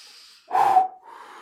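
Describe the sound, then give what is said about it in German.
A person breathing deeply, with a faint airy breath, then a louder, fuller breath in the middle, then a quieter one trailing off. “Warte, ich atme noch mal kurz.”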